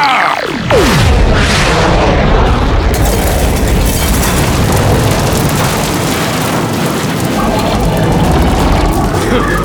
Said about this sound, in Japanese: ハイパー波動音波砲発射準備。 エネルギー充填完了まで3、2、1、0。 発射。